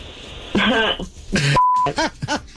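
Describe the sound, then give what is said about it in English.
A single steady electronic beep marks a phone call being hung up. It is short, mid-pitched and flat, and it falls between bursts of voices talking. “He f***ing hung up. He hung up. That's what it sounds like.”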